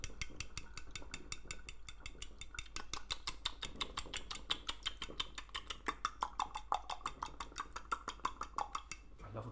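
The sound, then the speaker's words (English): Eggs being whisked in a bowl produce many quick, rhythmic clicking taps at a steady brisk pace, fairly faint and continuing throughout. “Now mix the eggs together and whisk them.”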